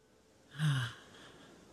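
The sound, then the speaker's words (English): A single deep breath, a quiet, breathy swell of air that rises and fades within about half a second over a soft background hiss. “Thought I'd take a deep breath. Many of you are welcome to breathe along with me.”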